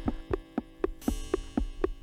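Synthesized heartbeat played back from a record: eight regular low, throbbing thumps at a quick, even pace over a steady hum, with no voices.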